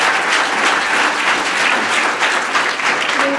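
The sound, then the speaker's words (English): Audience applauding a panel after its talks: dense, even clapping from many people that holds at a steady, fairly loud level throughout. “Would everybody like to applaud this nice panel?”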